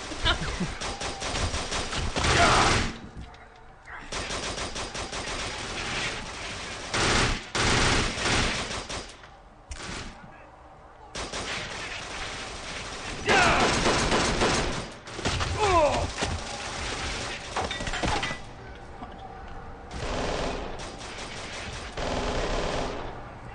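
Rapid automatic gunfire in a video game: loud, dense bursts of machine-gun fire separated by brief pauses, repeating across the whole stretch with occasional heavier thuds.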